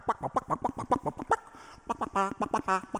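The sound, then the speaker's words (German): Orchestral music from a fifth movement depicting chicks dancing in their eggshells: many rapid staccato notes in a bouncy, chirping rhythm, then brief trills. “im fünften Satz, der Tanz der Küken in den Eierschalen. Ja, da hören wir dann dieses wirklich Markante, was alle kennen.”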